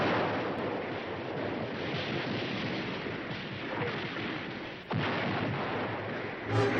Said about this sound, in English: artillery bombardment, soldiers fire from foxholes, then advance.